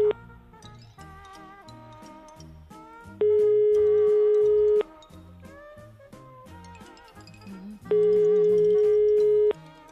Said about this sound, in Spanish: Estamos llamando.